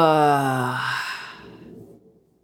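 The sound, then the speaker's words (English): Deep exhale out through the mouth: a voiced sigh whose pitch slides steadily downward, loud at first, then thinning into breathy air that fades away. “And exhale everything that is not serving you in this moment out of your mouth.”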